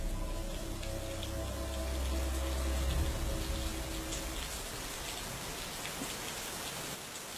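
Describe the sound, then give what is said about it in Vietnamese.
Steady rain falling, a dense even hiss of drops with a deep low rumble of thunder underneath in the first half that then fades out. “Ở bên ngoài, trời dường như bắt đầu đổ mưa. Loáng thoáng trong đó còn có cả tiếng sấm sét đì đùng.”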